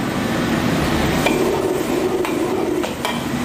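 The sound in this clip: Seasoned chicken and shiitake mushrooms stir-frying in a wok over a strong flame. A steady loud sizzle runs throughout, broken by a few sharp metallic clanks of the utensil against the pan.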